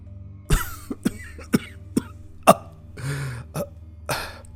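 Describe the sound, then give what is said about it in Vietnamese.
Sharp, raspy coughing from a Taoist priest clutching his chest: several abrupt bursts spaced unevenly with short pauses, one longer, rougher hack near the end, and no talk. “Đạo sĩ lúc này ôm ngực đi tới bên cạnh Lâm, ho lên vài tiếng mà than thở.”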